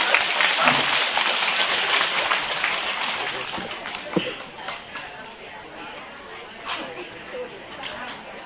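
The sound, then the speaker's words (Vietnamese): Audience applause at a religious gathering, a broad wash of clapping mixed with crowd chatter that stays fairly steady, with a few sharper claps standing out before it eases slightly toward the end. “Chịu không? Chịu hồi vỗ tay đi.”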